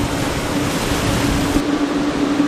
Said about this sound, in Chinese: 台风让整个大海波涛汹涌